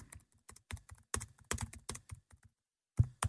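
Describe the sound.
Typing a word on a computer keyboard: many quick key clicks in irregular bursts, then a short pause and one louder final keystroke.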